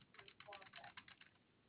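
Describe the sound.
Typing on a computer keyboard: a quick, uneven run of faint key taps that lasts under two seconds.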